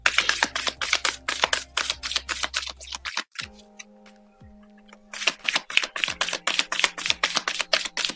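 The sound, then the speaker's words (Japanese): Oracle cards being shuffled and drawn, heard as bursts of rapid, crisp riffling clicks with a brief quieter lull midway before the shuffling resumes just as briskly. “そしてですね、今日のオラクルカード引いていきましょう。”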